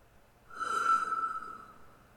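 A person blows a single steady puff of air to send pollen from blossoms drifting, a breathy gust lasting just over a second with a faint whistling tone, moderately loud and with no talk.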